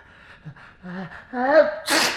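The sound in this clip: A single loud, breathy sneeze from a marquis bursts out at the end, right after a short stretch of voiced talk.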